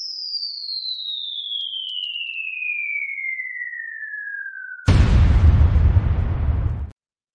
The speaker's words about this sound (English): whoa, big explosion.